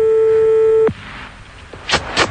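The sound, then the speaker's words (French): A telephone ringback tone sounds after a number is dialed: one steady mid-pitched tone lasting almost a second cuts off abruptly, followed by a few brief, faint clicks and rustles. “fais le numéro tout de suite, on va voir ce qu'il donne”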